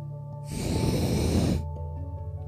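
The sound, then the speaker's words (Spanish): A single long exhale through the nose, done as part of a breathing exercise: a steady, rushing breath lasting about a second, fairly loud against faint sustained background tones. “a botar el aire por nuestra nariz por 3 segundos. Repito. Repito exhalamos por nuestra nariz”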